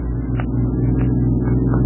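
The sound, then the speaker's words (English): A car engine drones steadily while the car creeps slowly along a dark, foggy road, a continuous low rumble with no talking. “I packed up all my equipment in the truck and we followed in my car. It was a dark, foggy night and we were driving very slowly on account of the fog.”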